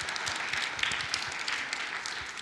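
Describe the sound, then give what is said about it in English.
Children applauding together after a story at a church service: a dense, steady patter of many small hands clapping without a break across the whole stretch, moderately soft and even in level. “Boys and girls, can you give Mrs. Nystrom a round of applause?”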